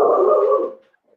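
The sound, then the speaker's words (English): A dog gives one drawn-out, mid-pitched bark or whine-like call that holds steady for under a second and then fades out, with no talking over it. “got a dog barking here. That's all right.”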